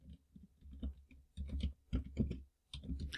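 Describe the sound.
A surname being typed into a search on a computer keyboard: quick clusters of light key clicks separated by short pauses, quiet throughout.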